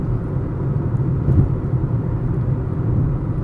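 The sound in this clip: A car drives along a road at night, a steady low engine and road rumble that holds evenly throughout without voices.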